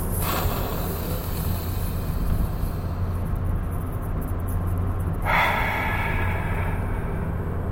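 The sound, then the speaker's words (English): Three deep breaths drawn close to the microphone come through as a loud, continuous rushing of air that fills the whole stretch, with a slight shift in tone near the end. “Are you ready? 3 deep breaths.”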